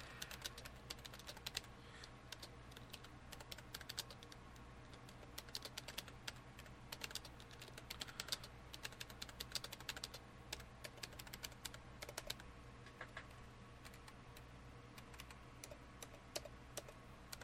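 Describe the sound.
Typing on a computer keyboard: a continuous run of quick, light key clicks with uneven rhythm, fairly faint and without speech, carrying on steadily throughout.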